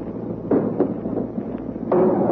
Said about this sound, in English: Just simultaneously with that shell burst that you heard, we hit the beach.